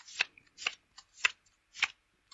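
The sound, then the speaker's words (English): Playing cards being dealt from a dinosaur card pack: five quick papery swishes at a steady pace, one noticeably fainter, alone in near silence. “I'll deal you 5 cards each from the dinosaurs pack.”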